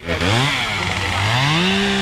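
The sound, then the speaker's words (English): A chainsaw run by a fire crew member putting out hot spots at a fire scene gives a loud, steady buzzing drone whose pitch dips, then climbs as the engine revs up. “We walked by a fire crew putting out hot spots. One guy had a chainsaw. I want to take you there right now. Let's play a little bit of from this scene.”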